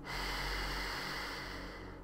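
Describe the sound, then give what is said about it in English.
A slow, deep inhale taken during a guided mindful breathing exercise, a soft steady breathy rush lasting about two seconds, faint and unbroken, with no talk over it. “Mindfully take a deep breath in.”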